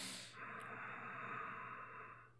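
A deep, slow breath drawn in through the nose during a relaxation exercise, a soft airy hiss that swells and holds for about two seconds, faint and alone.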